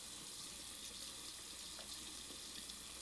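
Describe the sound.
Water runs from a tap while someone washes their face, a steady, faint hiss of flowing water that continues evenly throughout with no voices.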